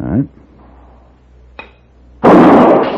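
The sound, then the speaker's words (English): A ball taps a shooting target with one faint, sharp click, followed moments later by a loud gunshot blast; a voice is heard briefly at the start. “Now, as I let go of each string, the ball will tap the target. So you listen very carefully and shoot as quickly as you can.”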